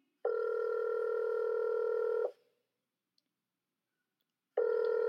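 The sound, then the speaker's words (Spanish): A telephone dial tone sounds as a steady, even buzzing hum in two bursts, the first about two seconds long, then a silent gap before the second starts. “Necesito llamar a alguien. Voy a llamar a Caballín.”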